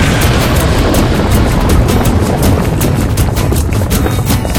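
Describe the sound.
A rocket blast-off roars as a sound effect: a dense, loud, steady rumble with rapid crackling pulses riding on top, sustained throughout with no voices.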